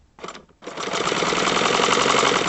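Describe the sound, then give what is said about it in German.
A sewing machine double-stitching shoe parts together into the upper: a brief burst of stitching, a short pause, then a steady, rapid mechanical rattle that runs on continuously. “Das wird alles genäht, ja. Alles wird alles doppelt abgenäht.”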